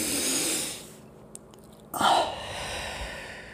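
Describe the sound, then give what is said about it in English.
A slow, deep breath taken while seated with eyes closed during a guided relaxation: two long, soft, airy rushes of breath separated by a quiet pause, with no talk. “you close your eyes and you take that deep breath”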